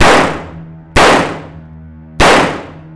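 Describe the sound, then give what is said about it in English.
Gunshots: three sharp, loud bangs, each followed by a long ringing decay that fades before the next shot, with no voices. “I'm gonna shoot him.”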